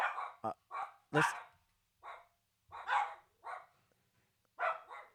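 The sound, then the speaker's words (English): A dog barking in a run of about eight sharp, separate barks with brief pauses between them. The barks are loud and stand alone, with no talk over them. “stop barking”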